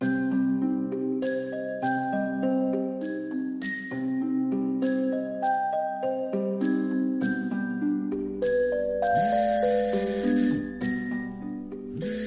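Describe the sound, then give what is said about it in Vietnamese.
A mobile phone alarm rings beside a bed, playing a bright melodic ringtone of repeated chiming tones that run steadily and loud throughout, with a harsher, noisier passage near the end. “tôi bị đánh thức bởi tiếng chuông báo từ cái điện thoại để ở đầu giường”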